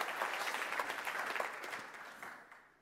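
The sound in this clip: An audience at a church service applauds to welcome a speaker, a dense steady patter of many hands clapping that gradually thins and fades out.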